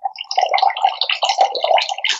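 Water rinses through the nose during a nasal wash, making a continuous bubbly, gurgling splash that flutters unevenly from start to end.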